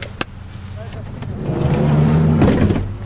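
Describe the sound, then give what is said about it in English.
A car drives into the grounds of a palace in Syria, its low engine and road rumble swelling steadily louder, with people talking over it. “Well, we're driving into the very, very grand and spacious palace grounds, and our Syrian driver is actually filming as we go.”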